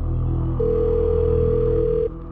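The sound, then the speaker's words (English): A telephone dial tone sounds as one steady, unwavering mid-pitched note for about a second and a half over constant background hiss, then cuts off. “I'm gonna reach my telephone.”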